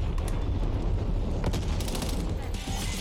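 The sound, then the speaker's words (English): Rapid gunfire from guns in a video game, a dense and continuous clatter of shots that stays loud and even throughout. “Yo, what guns are they using? I feel like they kind of hurt more than mine.”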